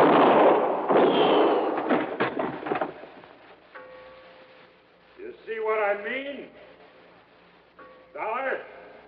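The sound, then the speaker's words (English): Gunshots ring out in a radio drama shootout: several loud, harsh bangs and rattling bursts crowd the first few seconds, then a voice talks through a quieter stretch. “I can see in here, but you can't. Now, well, I can see the flash of your gun.”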